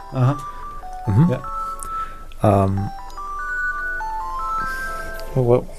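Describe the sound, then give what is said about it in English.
A mobile phone ringtone plays a stepped electronic melody of sustained tones, running beneath several short bursts of people talking. “That's not the song. Sorry, that was... That's your phone. That's my phone.”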